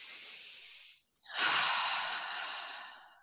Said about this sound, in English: Just sit comfortably. Close your eyes. Take a nice deep breath in.